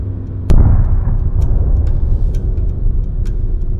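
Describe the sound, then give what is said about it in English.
A sudden blast erupts close by: one sharp, loud crack that gives way to a heavy, sustained low rumbling roar lasting several seconds, over a steady low hum that runs beforehand. “I think I felt it before I heard it. But there was no mistaking the sound. Something had blown up. Something close.”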